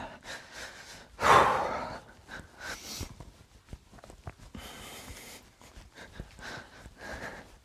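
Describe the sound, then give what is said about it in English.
Deep breathing during a timed exercise workout: one loud, sharp breath near the start, then a series of softer, uneven breaths in and out. “Deep breaths. Deep breaths in and deep breaths out.”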